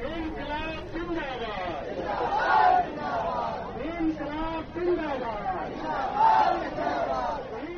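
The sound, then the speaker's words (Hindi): Left party workers chanting the slogan Inquilab Zindabad at a street protest in Patna: a crowd of voices calling out in repeated rhythmic bursts over steady crowd babble. “Patna सहित पूरे बिहार में आज एक बार फिर वामपंथी दलों के कार्यकर्ता लाल झंडा लिए सड़कों पर इनकलाब जिंदाबाद का नारा लगाते उतरे।”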